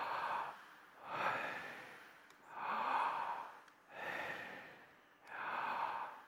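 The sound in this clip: An audience breathes in together: five broad, soft swells of massed breath rise and fall in a slow, even rhythm, with no talk over them.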